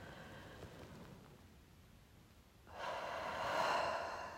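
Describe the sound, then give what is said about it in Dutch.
A single deep in-breath during a guided relaxation exercise. After a quiet stretch, a soft, airy inhale begins and lasts a couple of seconds, faint and alone with no talking. “En dan de laatste keer. Adem in.”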